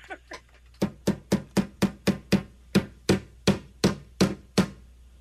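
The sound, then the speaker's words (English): Hammer strikes land in a fast series of more than a dozen sharp, hard blows at a fairly steady pace, each one loud and clear against a quiet background. “That's a hammer.”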